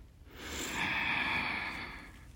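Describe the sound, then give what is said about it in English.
A single slow, deep breath drawn in during a stress-release relaxation exercise: a soft, airy hiss that swells over about two seconds, holds steady, then eases off. There are no voices. “Okay, take a deep breath in.”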